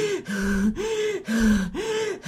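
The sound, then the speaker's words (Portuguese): A person demonstrates the gasping breath that can trigger panic: several quick, strained, voiced gasps in a steady repeating rhythm, each with a tonal, throaty edge, heard alone without talk. “Uma pessoa, ela pode entrar em estado de pânico se ela respirar dessa forma, assim, por exemplo.”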